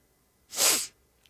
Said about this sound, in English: Arrogant sniff to finish.